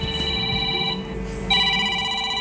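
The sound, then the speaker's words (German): A breakdown-service driver's work mobile phone rings with a steady electronic ringtone that breaks off briefly and then resumes, a little louder. “Ein Anruf am Diensthandy, dann geht's schon los.”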